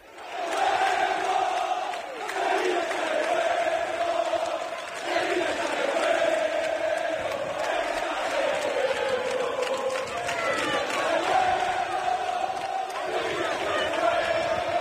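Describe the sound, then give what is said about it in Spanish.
Massed Sevilla football fans chant loudly and continuously to welcome their team's players the day before a match, a dense, sustained wall of singing and shouting voices. “La afición es consciente de lo difícil que es la situación y por eso se ha conjurado para animar al equipo. Escuchad.”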